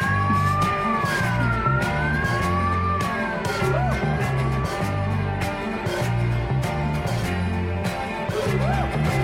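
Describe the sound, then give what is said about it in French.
A siren wails with a wavering, warbling pitch that rises and dips repeatedly, heard over a steady pulsing rhythmic background at fairly constant loudness. “C'est quoi ça? L'alarme incendie? Ah ben non, évidemment, c'est une sirène.”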